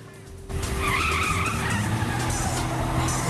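Tires squeal sharply as a car reverses hard in a parking lot. A loud, sustained screech starts abruptly after a brief quiet moment and holds to the end.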